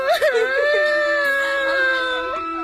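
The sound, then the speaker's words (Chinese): A child crying and wailing: a loud, high, sustained wail that wavers with short sobbing catches at the start, then holds a steady tone before trailing off slightly. “是赵多多，哇哇地哭叫起来。 别哭了，你们这些小贼。”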